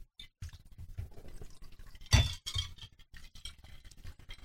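Ice clinks in a glass while a martini is made. Quiet rattling and scraping run throughout, with one sharper, louder clink near the middle.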